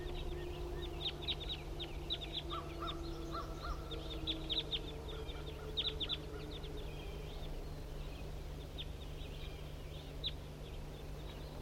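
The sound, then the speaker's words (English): Many short, harsh caws from a flock of wild birds in the early morning come in scattered bursts. The calls are faint over a steady low hum. “Here comes some more wild birds. Pointed at the wild flock.”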